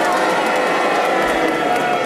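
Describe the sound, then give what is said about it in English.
A studio audience boos together at a challenge during a comedy panel game, a dense, steady roar of many voices that holds the same level throughout. “If you disagree with his challenge, you boo for Clement, and you all do it together now.”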